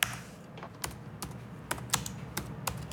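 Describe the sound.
Keys clatter on a computer keyboard in many quick, irregular taps. The separate sharp clicks are fairly faint and come in short bursts, with no talking.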